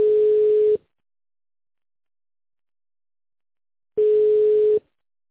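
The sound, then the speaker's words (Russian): Telephone line tone during a call transfer: two steady mid-pitched beeps, each under a second long, separated by about three seconds of silence. “Оставайтесь на линии, перевожу звонок на Юрию.”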